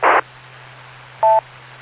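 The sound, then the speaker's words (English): A mobile phone beeps a meeting reminder with two short electronic beeps, a buzzy burst and then a clear pitched tone, over a faint steady hum and no talking. “My phone just beeped at me saying, you got a meeting in an hour.”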